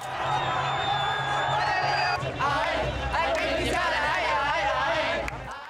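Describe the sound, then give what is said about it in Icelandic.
A crowd celebrates in the streets of Khartoum, loud and continuous, with whoops, shouted cheers and overlapping voices. “Samkomulaginu var ákaft fagnað á götum Khartoum.”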